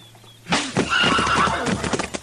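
A horse whinnies after being struck at a crowded hitch rack. The loud, shrill neigh breaks out abruptly after a half-second of near quiet and carries on to the end, with hoof clops mixed in.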